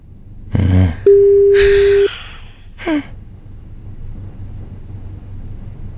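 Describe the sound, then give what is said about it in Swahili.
Telephone tone as hosts place a call on a Swahili-language radio phone-in: one steady mid-pitched beep lasting about a second, with short breathy noise bursts just before and after it. “Sasa nafikiri let's make this call. Let's make this call. Pokea simu, nyosha maelezo.”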